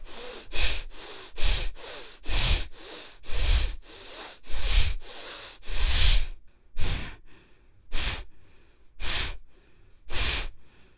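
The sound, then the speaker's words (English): Many forceful exhaling breaths during a breathing exercise, sharp hissing puffs that come in a quick, regular rhythm at first, then space out into slower, separate blasts. “Use your whole body. Use your hands, your arms, your shoulders, your whole body. Concentrate on the exhalation. Exhale, exhale, exhale.”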